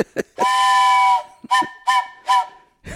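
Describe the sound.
A train whistle sounding the flagman-protecting-train-rear signal: one long, loud, chord-like blast followed by three short blasts in even rhythm, with no voices.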